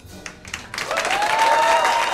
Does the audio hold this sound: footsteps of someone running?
no

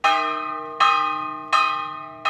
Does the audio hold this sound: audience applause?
no

